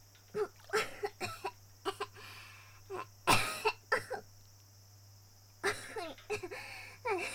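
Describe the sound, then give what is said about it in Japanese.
Coughing after choking: many short, faint coughs and throat-clearing bursts come in uneven clusters with a few quiet pauses between them. “大丈夫。ちょっとむせただけだから。”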